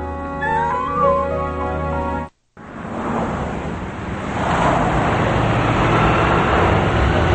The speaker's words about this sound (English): Adam's driving a box van, and Troy is lurching back and forth inside.